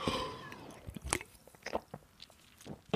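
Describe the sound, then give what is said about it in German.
Faint sips and swallows of multivitamin juice: a few soft, wet mouth clicks and gulps, scattered irregularly and quiet throughout. “Oh, ich muss erstmal einen Schluck”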